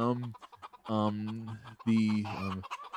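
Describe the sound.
Chickens cluck and squawk in three bright, drawn-out calls separated by short pauses, loud and standing alone without talk.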